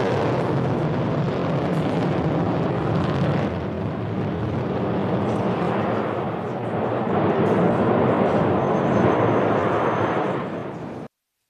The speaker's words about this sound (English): The landing burn has begun. I think we also heard, we can hear it.